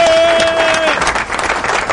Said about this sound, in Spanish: Un aplauso para Gilbertico ahí.